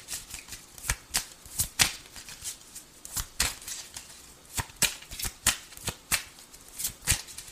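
Tarot cards being shuffled and drawn, a long series of crisp papery snaps and flicks in an uneven rhythm, quiet and with no talk.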